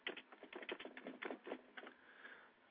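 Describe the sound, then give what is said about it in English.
Typing on a computer keyboard: many rapid, faint key clicks in an uneven stream that thins out toward the end, with no talking. “As I type and talk at the same time.”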